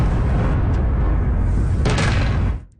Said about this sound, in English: explosions in the night sky over the capital.